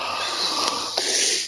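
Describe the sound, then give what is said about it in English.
A person draws a deep breath during a guided stress-relief stretch: one long, even, airy hiss lasting over a second before cutting off abruptly. “take a nice deep breath and stretch”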